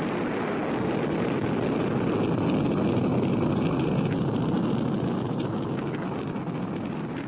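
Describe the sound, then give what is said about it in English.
A sleek white spacecraft interceptor blasts off with a dense, loud, continuous roar of engine rush and rumble that holds steady throughout. “as Maura and Galen watch from the Valaria Tracking Center, the sleek white SET interceptor blasts off for Starlab.”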